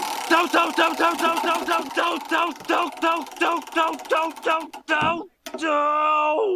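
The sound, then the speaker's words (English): A prize wheel spins with a rapid series of many bright, evenly spaced ratcheting ticks. After a short break it ends in a sustained ringing tone. “So let's just bust out that wheel and give it a spin.”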